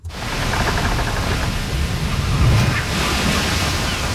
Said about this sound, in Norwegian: Vi ute på sjøen I Karibien. Året 1969. Sola skinner over det turkise vannet mellom St. Thomas og St. Croix.